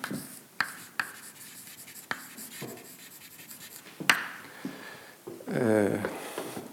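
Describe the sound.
Writing on a board during a lecture: a few sharp taps and short strokes, then a squeaky drawn stroke near the end, all fairly quiet with no talking over it.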